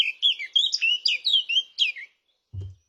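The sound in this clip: A blackcap, a small grey songbird, sings in a garden in May: a high, fast warbling run of many bright, varied phrases lasting about two seconds, followed by a single short low thump.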